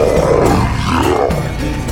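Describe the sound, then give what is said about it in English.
A deep, menacing monster roar, loud and sustained for the full two seconds, with a rough, growling texture and a wavering pitch. “The neon monster roared. His menacing voice shook the ground below him.”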